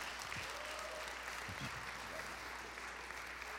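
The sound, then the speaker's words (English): A church audience at Christ Community Church applauds a guest speaker, a judge, with steady, soft clapping that carries evenly through the whole stretch. “So if you would put your hands together and make him welcome.”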